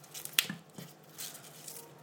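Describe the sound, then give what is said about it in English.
Broccoli being snapped into pieces by hand over a colander, a few faint, crisp cracks in quick succession, the sharpest one near the start, with quiet rustling between them. “It's easier to break broccoli, I have found, than actually cutting it up.”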